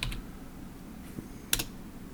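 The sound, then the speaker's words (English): Soft, sparse keystrokes on a computer keyboard as a film title is typed into a search, just a few faint clicks separated by quiet gaps. “I can just type the name. I can just type Meet the Feebles.”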